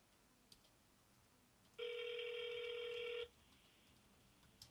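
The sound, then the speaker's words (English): An iPhone rings while placing an outgoing call: one steady, buzzy electronic tone lasting about a second and a half, alone over faint background hiss. “Which phone number for Matthew Alexander? iPhone. Ringing.”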